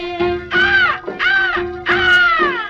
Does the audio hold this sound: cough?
no